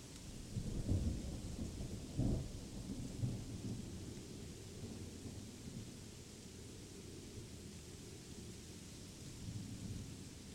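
A thunderstorm with steady rain, faint overall. Two low rolls of thunder rumble early on, then the rain hiss continues evenly on its own.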